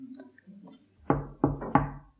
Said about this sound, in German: Das Klopfen kam und wir zuckten simultan zusammen.